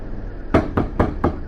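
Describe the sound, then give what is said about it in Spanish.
Four dry knocks on a door, sharp and evenly spaced in quick succession, rapping out over a low, steady background rumble. “unos golpes secos en la puerta me sacudieron el cuerpo”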